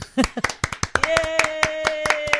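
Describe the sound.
One person applauds, many crisp hand claps in a quick, even rhythm, with a sustained voice sounding under the claps from partway through.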